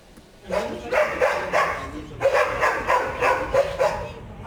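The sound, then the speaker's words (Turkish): Dogs barking at a dog farm between residential buildings in a neighbourhood in Bursa's Yıldırım district: after a brief quieter start, many repeated mid-pitched barks follow one another in a steady, insistent rhythm. “Binaların arasındaki köpek çiftliği mahalleyi ayağa kaldırdı.”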